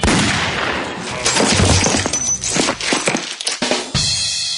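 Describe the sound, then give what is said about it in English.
Gunfire from a 9mm pistol: several sharp, loud cracks burst out over a dense, noisy background in quick, uneven succession. “9mm solution. Sometimes it is the solution. Gun to chin. Pull trigger.”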